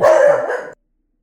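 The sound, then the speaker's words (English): A dog barks at a passing car: one loud, short woof lasting under a second, followed by silence. “my dog is so dumb. Like, a car drove by. Why do we care that a car drove by?”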